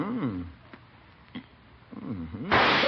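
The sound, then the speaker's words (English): A loaded trick cigar explodes with a sudden, loud, noisy burst near the end, after voices speak. “Gildersleeve! It exploded! Oh, my goodness. Gildersleeve, how dare you give me a loaded cigar?”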